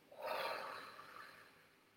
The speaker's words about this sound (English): Breathe. Inhale really big. Then exhale very slowly.